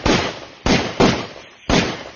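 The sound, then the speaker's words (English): Gunshots from a ZKR gun at target practice: four sharp, loud reports, each with a quick ringing decay, spaced unevenly across about two seconds. “She rattled off 5 shots in quick succession.”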